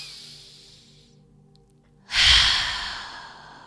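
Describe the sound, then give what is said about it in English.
One deep breath is blown out in a loud, airy exhale. It starts suddenly after a quiet stretch and slowly fades away. “Take time to breathe it out.”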